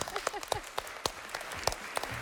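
Scattered, irregular hand claps from children in a classroom: a handful of sharp, separate slaps that come in uneven bursts rather than a steady round of applause.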